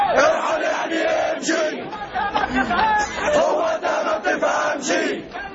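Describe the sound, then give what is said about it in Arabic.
A large protest crowd in Egypt chants for Mubarak to step down, with many voices shouting together in a dense, continuous roar that stays loud throughout and swells and dips slightly. “إنها موجات بشرية تتسع أفقيا وعموديا، ولكن بهدف واحد ولسان واحد يهتف بتنحي مبارك عن السلطة.”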